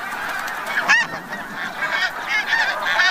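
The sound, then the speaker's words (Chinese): Snow geese honk at their Arctic breeding ground during nesting season, a loud, steady stream of many overlapping nasal calls from a flock with no pause between them. “雪雁一生只忠于一个伴侣，每对雪雁到达之后就必须立刻占据一块筑巢地。”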